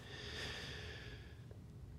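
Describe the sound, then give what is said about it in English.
A deep breath is taken at the start of a guided session, a soft, steady, airy rush that lasts about two seconds at low volume. “as we always do, by taking our deep breath”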